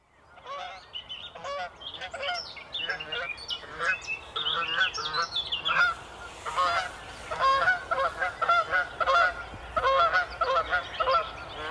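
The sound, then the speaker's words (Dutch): Canada geese honk in loud, trumpeting calls at dawn in Germany, many nasal honks repeating in a quick, uneven rhythm that grows louder and denser in the second half. “Canadese ganzen. Trompetterende geluid.”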